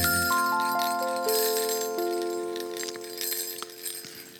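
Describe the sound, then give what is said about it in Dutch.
Christmas bells ring out in a series of clear, sustained chiming tones, each note entering one after another and lingering, with a faint glassy jingle fading toward the end. “En ik heb de kerstbelletjes al zelf.”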